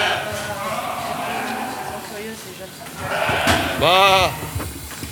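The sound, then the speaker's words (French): Frightened ewes bleat on a sheep farm: one loud, wavering bleat stands out near the end, over continuous conversation and low background noise. “Je voulais interroger une brebis, mais elles ne sont pas très loquaces, ici. Si tu rentres, elles vont l'être. Ah ouais? Pour tous les Oh, elles ont peur.”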